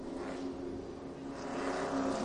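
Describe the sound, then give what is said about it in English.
A Dodge Hellcat pace car leads a field of race cars around the track before qualifying for the Atlantic Cat 250. The engines make a steady, droning roar that grows slightly louder toward the end. “As the Dodge Hellcat of Alan Curry is the pace car. He'll bring him around a couple times.”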